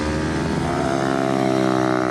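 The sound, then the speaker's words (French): Small-block racing motorcycle engine running, a loud, buzzing drone rich in harmonics that holds a fairly level pitch with slight wavering throughout. “Mais la moto pardonne pas mal. Et c'est vrai que c'est très rigide. C'est-à-dire d'un petit bloc, quoi. C'est hyper nerveux. C'est une vraie moto de course.”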